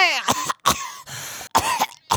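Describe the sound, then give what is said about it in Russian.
An old woman coughs while sitting on a bench: a few sharp, throaty bursts separated by brief silences, loud and with no other voices. “Так я ж кашляла, а не чахала.”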